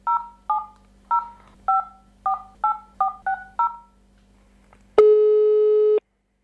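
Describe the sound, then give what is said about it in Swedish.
A telephone call is dialed as nine touch-tone digits in a quick, slightly uneven sequence, followed after a short pause by a single steady, clean tone lasting about one second. “då ska vi ta och ringa upp Bengt Gustafsson så får vi se om han svarar”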